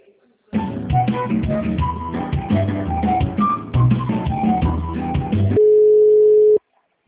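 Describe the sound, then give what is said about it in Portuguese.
Telephone hold music while a call is being transferred, playing steadily for about five seconds before switching to a single sustained steady tone that lasts about a second and then cuts off. “Já te transfiro a ligação, só um momento.”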